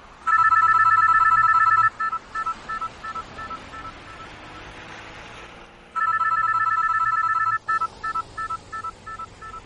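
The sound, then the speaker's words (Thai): A cell phone rings in a moving car with a rapid, bright electronic trill in two bursts separated by a pause. Fainter intermittent clicks and rumbles fill the gaps. “Why does your mom keep calling your cell phone?”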